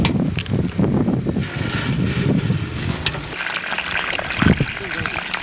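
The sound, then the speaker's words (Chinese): Water is poured onto melon plants in a hot, dry garden, producing a continuous soft splashing and trickling that rises and falls unevenly, with a brief louder splash near the end. “天太热了，这下面这都有点干了，给瓜浇浇水， 让它呀茁壮的成长。”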